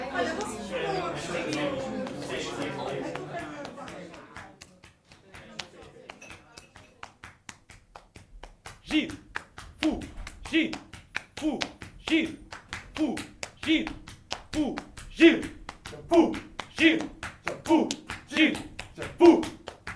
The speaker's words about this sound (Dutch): maar er werd ook op een zeker ogenblik zomaar een spontaan optreden verzorgd door twee studenten, ook hier in het café, die elkaars ruggen gebruikten als slagwerkinstrument.